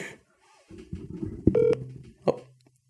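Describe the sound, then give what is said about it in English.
A telephone call rings through as a short, bright electronic beep with a buzzy tone, set between a few sharp clicks. The sounds are fairly faint, with quiet gaps and no voices. “See if he answers. He's gonna put it. It's gonna ring like one more time, and he's gonna voicemail me.”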